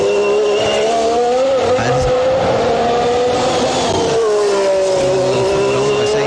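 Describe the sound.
A V6 car engine revving loud and sustained, its tone rising and falling over the whole clip, with a brief voice speaking over it.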